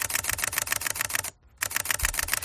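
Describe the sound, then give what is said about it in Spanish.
A film camera shutter clicks repeatedly in a fast, steady, mechanical rhythm. The rapid, crisp clicks stop for a brief moment midway and then resume at the same pace. “Como se hacían las fotos antes, ¿no? Con la cámara de fotos, eso sí, repetidamente.”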